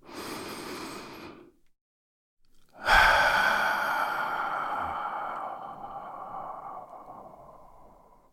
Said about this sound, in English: let's take a deep breath